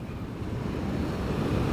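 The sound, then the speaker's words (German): Wind gusts hard in a sudden storm over a mountain forest, a steady, dense roar of rushing air that holds its loudness throughout, with no voices. “Und so schnell der Wind gekommen war, so schnell war er auch wieder vorbei.”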